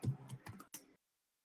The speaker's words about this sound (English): I think someone's trying to type and it's not working. Is someone trying to type?